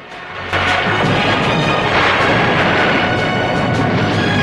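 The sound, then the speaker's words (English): Explosions rip through an offshore platform in a James Bond film as orange fireballs erupt. A sudden burst near the start swells into continuous, loud, roaring blasts with crackling debris. “and the control room is rocked by explosions. Orange fireballs erupt all over the platform as Bond rushes out of the crane and executes a perfect swan dive into the sea.”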